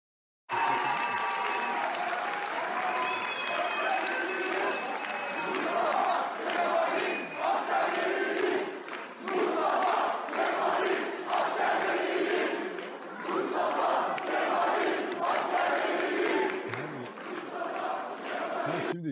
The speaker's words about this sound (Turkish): Onun bir görüntüsü var arkadaşlar hazırladıysa. Evet. Kutlama görüntüsü.